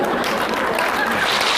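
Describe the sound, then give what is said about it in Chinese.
Audience applause, a thick, even burst of clapping that holds steady at full strength throughout. “您各位还鼓掌呢”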